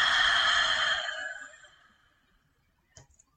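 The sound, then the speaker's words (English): A single long exhale through the mouth after a deep belly inhale during a breathwork session, a loud breathy whoosh that fades away over about two seconds into quiet. “And this time really inhaling through the belly. Up through the chest, fill it up, and now exhale through the mouth.”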